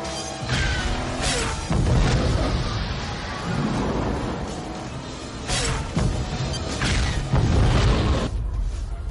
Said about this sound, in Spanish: Las rejillas delanteras de los coches se abren. Disparan a la vez.